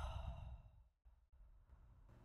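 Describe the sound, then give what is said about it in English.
A deep breath released through the mouth during guided breathing, a faint, soft sigh of air that fades out and leaves quiet breathy noise behind. “let's take three deep breaths in through the nose and out through the mouth. Breathe in through the nose, out through the mouth.”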